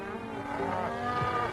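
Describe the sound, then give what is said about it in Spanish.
Cattle moo in a dramatised Bible story about Jacob sending a herd ahead as a gift. A drawn-out, low, droning bovine call runs steadily through the moment at moderate loudness. “Detrás iba otro grupo con 50 cabezas de ganado.”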